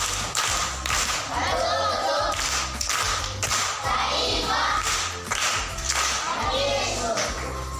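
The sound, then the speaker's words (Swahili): Patterned group clapping given for an aunt in a school class, firm bursts of claps repeating at a steady rhythm across the whole stretch, mixed with dull thumps. “Makofi kwa shangazi.”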